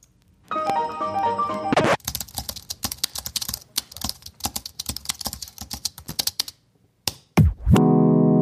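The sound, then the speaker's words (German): Computer keyboard typing edited into a homemade jingle: a short run of bright melodic notes, then many rapid, irregular clacks of keys, a swooping sweep and a final sustained tone. “einfach aufgenommen, wie ich auf meiner Tastatur rumgehauen habe und das eingebaut”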